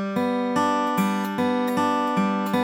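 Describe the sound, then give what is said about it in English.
Banjo-style forward roll picked with finger picks on open guitar strings (G, B and high D), a steady repeating cycle of bright plucked notes that ring together into a rolling, even pattern. “Starting out on the open strings, the forward roll sounds like this.”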